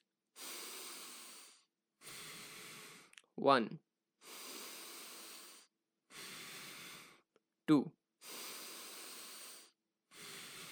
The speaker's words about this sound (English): take a deep breath and release it slowly and do it 3 times. Okay, come on, do it with me.